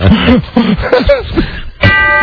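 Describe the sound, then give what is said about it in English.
A brief bright chime rings out after a stretch of voices, sustaining a steady, tonal ring for about half a second at the end. “Chime time.”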